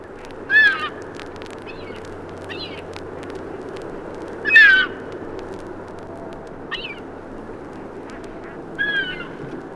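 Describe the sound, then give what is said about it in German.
Two herring gulls give harsh, strident calls while chasing a passing buzzard. Several loud call bursts come at irregular intervals, with a few fainter calls between them, over a steady low background rumble. “Dies betrifft insbesondere die Silbermöwe, die größte der bei uns brütenden Arten. Hier verfolgen zwei Vögel einen vorüberziehenden Bussard.”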